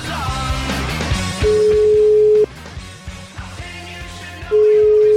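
A telephone ringback tone sounds while calling someone back: two steady, mid-pitched beeps, each about a second long, separated by a pause, over a low, busy background.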